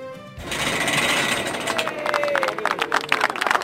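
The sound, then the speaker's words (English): Crowd noise at a flag-raising ceremony at city hall in Toronto: a steady, dense wash of murmuring voices and general bustle that continues throughout. “That's the sound of the CARP flag being raised. It happened at city halls across the country last Monday.”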